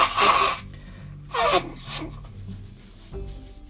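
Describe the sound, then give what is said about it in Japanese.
Someone blows their nose after swimming in a pool, not from a cold. A few short, breathy, rasping bursts come with pauses between them, and the first is the loudest. “すいませんちょっと鼻をかみますごめんなさい”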